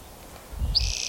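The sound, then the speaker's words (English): A pileated woodpecker calling: a single high, clear note begins partway in and is held to the end, over a soft low thump. “pileated woodpecker”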